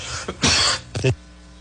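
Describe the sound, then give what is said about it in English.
Harsh, hoarse coughs from one person: a short catch, a long loud burst, then a closing cough, heard alone without talk. “I apologize, folks. It's not a COVID cough.”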